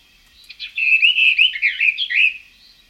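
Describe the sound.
A bird's regional French song variant, played from a record, rings out as a continuous high, warbling run of chirps and whistled notes lasting a couple of seconds, with no talking.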